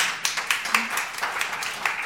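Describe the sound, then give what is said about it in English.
Audience clapping at a talk, a light, steady patter of separate claps at a brisk, fairly even pace, rather faint and continuing throughout. “I don't want to say don't clap. You can clap.”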